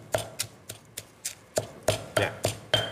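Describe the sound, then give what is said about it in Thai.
A pestle pounding large and small chillies in a mortar for Thai cooking: ten dull, even thuds with short knocking attacks, struck at a steady rhythm. “ใส่พริกนี่โขลกแบบคลุกคลิกใช่ไหม ใช่เดี๋ยวจะเผ็ดมากไปค่ะใช่ พริก เอาสักหน่อยค่ะนิดนึง”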